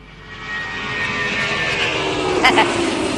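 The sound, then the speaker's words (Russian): An airplane taking off gives a loud engine roar with a droning tonal whine. It swells over the first half second, then holds steady, with a brief sharper burst near the end. “Маэстро, нарисуйте-ка нам взлетающий самолет.”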